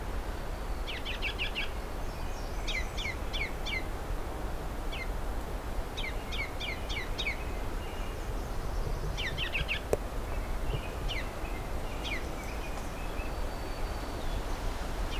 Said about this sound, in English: I don't know much about the song habits of Ruby Crown Kinglets, although this could be... No, it's a male. The Ruby Crown is for sure there.